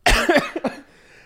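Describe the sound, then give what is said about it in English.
Coughing up mucus: a few quick, harsh, wet coughs in a short burst, loud at first and then fading to quiet. “So here's some mucus I just spit up.”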